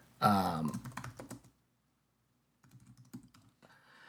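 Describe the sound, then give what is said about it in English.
Rapid clattering keystrokes on a computer keyboard while typing into a Google search, one busy burst of typing, a pause of about a second, then a further run of lighter taps. “I'm going to get it up on my screen here really quick. Just give me one moment here to type into the Google machine.”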